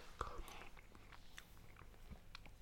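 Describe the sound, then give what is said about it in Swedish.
Someone chewing a mouthful of mashed potato from a plated meal with onion gravy and carrots, giving faint, soft mouth clicks and several quiet chews. “Jag provar moset om ni undrar.”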